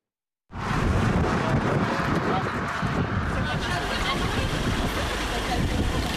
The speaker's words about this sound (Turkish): Aksaray-Konya karayolunda bir anda kum fırtınası başladı.